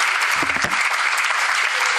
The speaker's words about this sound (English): Give yourselves a round of applause for coming out to support the comedy appreciate it.